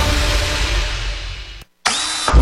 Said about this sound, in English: He just drilled through a live wire.